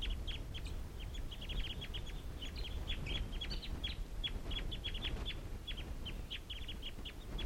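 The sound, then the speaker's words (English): Wild birds in a flock calling just before taking off: many short, high chirping calls repeat quickly and steadily throughout, over a constant low background rumble. “And these are the wild birds calling. And it looks like they're going to take off.”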